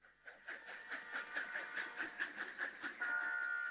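A train on the Khaf–Herat railway in Afghanistan gives a rhythmic, pulsing clatter beneath a sustained tonal whistle that grows steadier and louder toward the end.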